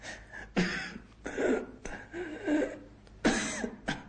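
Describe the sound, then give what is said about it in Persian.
A man coughs severely, with several harsh, rasping bursts separated by short pauses, some sounding like strained throat clearing. “سعید به شدت سرفه می‌کرد.”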